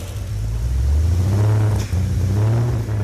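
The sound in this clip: A freshly rebuilt engine runs on its first test start, a loud, steady low droning rumble with one brief dip partway through, then holding its level again.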